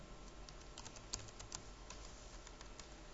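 Quiet typing on a computer keyboard: many light, irregular keystrokes clicking over a low steady hum, with a couple of slightly sharper taps standing out.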